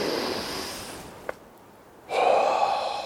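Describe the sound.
Deep breathing in and out while walking: a rush of heavy, breathy air, a short quiet pause, then another strong breath, with no talk.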